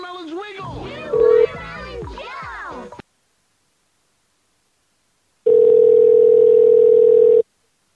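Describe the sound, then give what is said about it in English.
A telephone call is placed with a steady, mid-pitched dial tone that holds for about two seconds after a pause, preceded by brief talk and a short beep. “We got another phone call on Prank Bungle live.”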